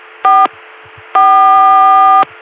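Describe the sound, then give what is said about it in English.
Atlanta CCSA telephone dial tone reached through a Columbia PBX, sounding as two loud, steady electronic tone bursts: a short one, then a longer one lasting about a second, over a faint low line hum. “5 is the code for CCSA in Columbia, and so here we are sitting on an Atlanta CCSA dial tone,”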